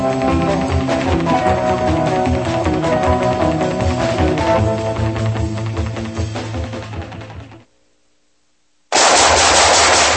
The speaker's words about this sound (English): Nice shooting.